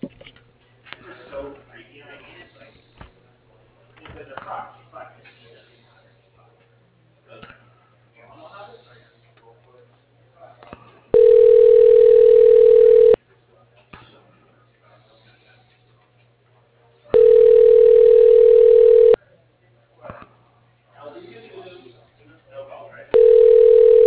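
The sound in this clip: Telephone line tone while a call is transferred to voicemail: three loud, steady tone bursts, the last cut short, separated by stretches of speech.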